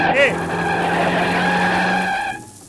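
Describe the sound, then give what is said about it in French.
Tyres skid under an American bus braking hard at a road junction, a loud, steady high screech held for about two seconds before it cuts off sharply. “Oui, c'est un bus américain. Je l'ai vu trop tard. Heureusement qu'il a de bons freins.”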